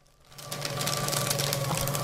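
A paper shredder destroys and shreds something, its motor whirring up from near silence and then running as a steady, buzzing mechanical drone.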